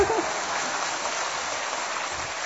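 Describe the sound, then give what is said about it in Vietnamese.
Audience applause at a large La Vang pilgrimage congress, dense and even clapping that sounds like steady rain and holds at a constant level throughout. “Mình vỗ tay cho nó có khí thế”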